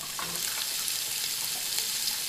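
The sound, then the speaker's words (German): A deboned saddle of venison sears in a hot pan, giving a loud, continuous, crackling sizzle of frying meat that holds steady throughout, with no talking. “Der vom Knochen gelöste Rehrücken wird erst scharf angebraten und dann sanft rosa gegart.”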